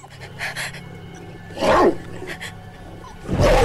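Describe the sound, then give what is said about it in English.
A German Shepherd snarls as it attacks, teeth bared. Two loud, rough snarling bursts stand out, each separated by quieter breathy sounds. “A huge dog leaps up and knocks over Sarah and John. The German Shepherd, teeth bared, stands over Sarah.”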